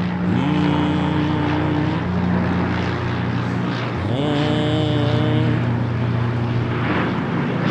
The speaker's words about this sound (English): I can't wait for the blimp speech. I think it's going to sound something like this.